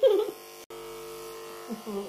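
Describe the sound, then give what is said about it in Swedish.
An electric razor shaving hair at the back of the neck: a steady, low, even buzz runs continuously after a brief cut-out, with people talking at the start and near the end. “Raka lite i nacken så.”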